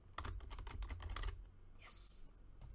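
Fingers tap quickly on a computer keyboard, a rapid run of crisp clicks that stops partway through, followed by a brief soft hiss.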